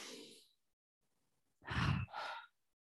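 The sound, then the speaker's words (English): A deep breath taken together by people: a soft, breathy inhale, a short pause, then a fuller exhale in two pushes, with no talk. “Can we take a breath together?”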